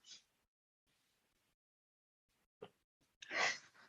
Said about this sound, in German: Dann atme mal tief ein und aus.